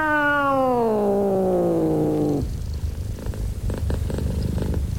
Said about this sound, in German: ihre schwarze Katze, begrüßte mich